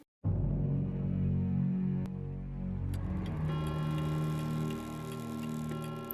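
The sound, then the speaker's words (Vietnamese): A pendulum clock ticking in the silent night, its slow, sparse ticks set over a low, sustained, eerie drone that holds steady throughout. “Tiếng đồng hồ vang lên rõ mồn một trong đêm tối, không gian im lặng đến rợn người.”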